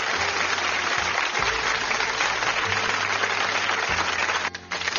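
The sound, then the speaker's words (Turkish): Dense, steady applause rewards the recitation of a poet's verses on a Turkish show. The clapping stays loud and even throughout, then dips briefly near the end. “Alkışlar tekrar Suna için geliyor.”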